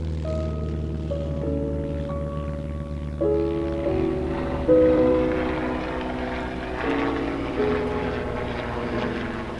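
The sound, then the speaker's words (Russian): Droning engine of a sea rescue propeller aircraft taking off, a steady, moderately loud hum with layered tones that shift in pitch in steps and swell slightly at a few points. “Спустя несколько минут морской спасатель взлетел и исчез на востоке.”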